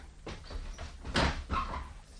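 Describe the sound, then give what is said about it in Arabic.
An apartment door being opened, heard as a few soft knocks and shuffles around a brighter scraping clunk in the middle, quiet overall. “هقوم افتح الباب.”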